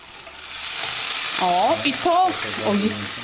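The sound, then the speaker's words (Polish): Pumpkin added to tomatoes stewing with onion, carrot and celery: a steady sizzling hiss with stirring scrapes and soft bubbling throughout. “Do tych właśnie duszących się pomidorów, które Pan widzi, z cebulką, marchewką, z tym selerem, wkładam tą dynię.”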